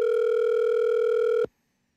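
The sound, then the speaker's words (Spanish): Telephone dial tone heard while placing a call, a steady, loud, unbroken electronic hum that cuts off abruptly after about one and a half seconds into silence. “Voy a llamarla. Vamos a ver. Vamos a ver. Váyalo. Aquí estoy llamando.”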